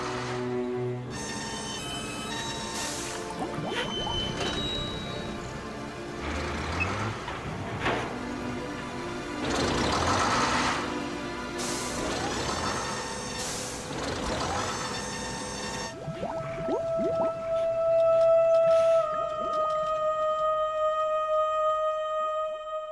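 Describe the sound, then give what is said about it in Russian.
A crane hauls a tractor out of water: heavy machinery drones steadily, with a dense engine hum, whining harmonic tones and intermittent clanks. Steadier high tones ring out over the noise toward the end. “Они достают из воды трактор.”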